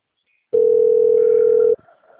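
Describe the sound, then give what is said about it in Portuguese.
Telephone dial tone heard while placing a call: one steady, unbroken beep of about a second that cuts off abruptly, followed by faint line noise, with no voices. “tô ligando.”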